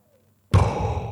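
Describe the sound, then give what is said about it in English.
A single loud, breathy snore from someone asleep, a sudden puff of air like blowing out candles. It starts abruptly after a short silence and fades slightly over under a second, heard alone. “that's your snore now?”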